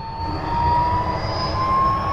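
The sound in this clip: An airplane takes off with a loud, steady engine roar and a thin, high whine that climbs slightly in pitch throughout.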